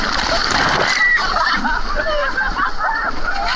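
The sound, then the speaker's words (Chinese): A big wave crashes against a seawall during a rough high tide, making a loud, broad splash and slosh of water. Excited voices shout and call out over the surging water. “一个大浪打过来”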